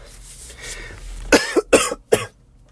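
Several sharp, harsh coughs from someone choking on a lemon-flavoured drink, coming as a quick cluster of loud bursts after a low, quiet stretch.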